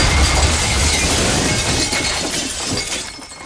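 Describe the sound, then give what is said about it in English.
A loud crash of smashing glass and crockery as a flaming boat motor falls onto a buffet table and crushes it: one continuous, dense shattering burst that holds steady, then slowly thins out over about three seconds. “The motor shoots into the air in a fiery blaze. Tom, Kate, and Jimmy shield their faces. Below, the Baker kids stare, slack-jawed. The flaming motor falls on the buffet table, crushing it.”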